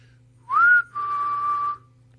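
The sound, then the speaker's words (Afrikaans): A person whistling in imitation of a simple family whistle: a short rising note, then a longer, steady, slightly falling note, clear and fairly soft, with no talk. “En dit is 'n baie eenvoudige fluit. Ek weet nie of ek hom kan namaak op radio nie, ek gaan try, maar hy klink so iets, hy klink so.”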